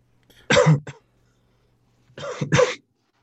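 Coughing from a person, in two sharp, rough bursts: a short cough first, then after a pause a longer, doubled cough, loud and alone without talk.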